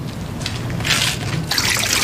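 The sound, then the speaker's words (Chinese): Running water from a tap while dishes are washed, a steady hiss that swells in bursts of brighter splashing and trickling, with no voices. “你先别洗碗了啊”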